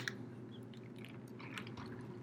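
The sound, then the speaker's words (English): Faint, continuous chewing and crunching of nachos, eaten by hand without a spork alongside tacos, with soft wet bites and crunches over a low steady hum. “Yeah, and I'm finishing my nachos without a spork.”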